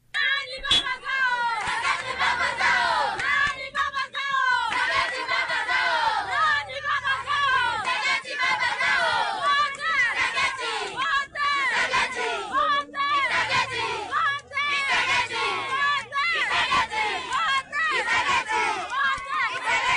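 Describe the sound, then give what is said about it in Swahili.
Residents of Sange in the eastern Democratic Republic of Congo sing and cheer near a bridge at Kabunambo for the national army's arrival. Many voices chant rhythmically with loud shouts and clapping, continuous throughout. “Hizo ni nyimbo na shangwe za raia wakazi wa Sange kati wakija darajani pembeni ya Kabunambo kushangilia ujio wa jeshi la taifa la Jamhuri ya Kidemokrasia ya Kongo FRDC lililoingia mjini Sange mapema mchana wa Jumatatu Mei 11.”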